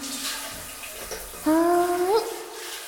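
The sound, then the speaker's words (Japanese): Water from a shower runs as a steady, soft hiss that becomes noticeably louder a little past halfway, with a faint tonal whine rising briefly in the louder stretch. “あとは、シャワーを。こっちも大丈夫そうだね。”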